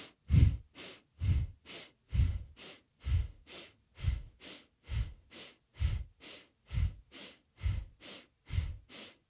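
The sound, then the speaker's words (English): Breath of Fire breathing: rapid, even breaths in and out through the nose, with inhales and exhales of equal length. Many sharp, puffing pulses follow one another in a steady, fast rhythm with no talking. “Breath of Fire, it's simply breathing in and out through the nose at a rapid pace, and your inhales are the same length as your exhale. So it sounds like this.”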